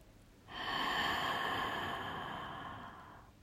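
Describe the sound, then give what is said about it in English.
A deep breath taken during a meditation exercise: one long, soft, airy rush that swells quickly, holds, then slowly fades out. “take a deep breath in through your nose. Open your mouth. Exhale.”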